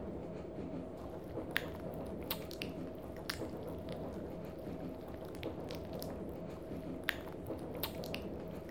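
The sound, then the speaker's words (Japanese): Wet, slippery squelching mouth sounds of saliva spread like lotion, a continuous sticky smacking texture broken by sharp little clicks, steady and close, with no talking. “よだれを少し垂らして、ぬるぬるのローションみたいにまぶして、いやらしい音を立ててみたり”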